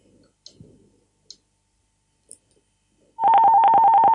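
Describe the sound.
A few faint clicks on a telephone line give way to a loud, steady buzzing tone as an incoming caller is connected on a call-in show.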